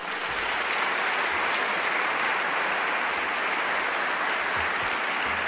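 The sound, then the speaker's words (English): Sustained audience applause welcoming a guest speaker to a lecture, a broad, steady roar of clapping that holds at an even level from start to finish with no voices breaking through. “I'd like you to give him a big hand, and please welcome Eric today.”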